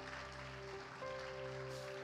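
Congregation clapping in a church service, a dense, steady patter of applause at moderate level, with sustained organ-like tones and low hum running underneath throughout.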